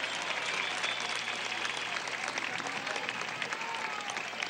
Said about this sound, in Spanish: un aplauso a Luis José Marcano, joven ministro de Comunicación